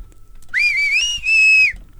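A person whistles two clear, high, sustained phrases with a brief gap between them. The first phrase slides upward at its start, then both hold fairly steady. The whistling is loud against a quiet background.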